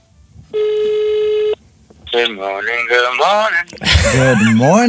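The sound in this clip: A telephone ringback tone during an outgoing call sounds once as a steady, buzzy tone lasting about a second, then people talk over the line.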